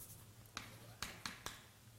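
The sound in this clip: Faint taps of writing on a board during a mathematics lecture, with four sharp, short clicks spaced irregularly over a quiet, low background hum.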